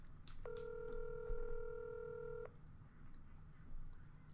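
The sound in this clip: A telephone tone sounds as a call is placed: one steady, faint electronic beep held for about two seconds, preceded by a couple of soft clicks, with no talking.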